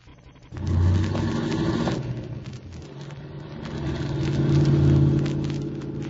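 A car engine starts and the car is driven off, roaring up quickly and settling into a steady mid-pitched hum before swelling again toward the end.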